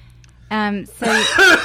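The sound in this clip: Coughing and throat clearing from someone with a nut husk stuck in the throat: two rough, voiced bursts, a short one and then a longer, harsher one.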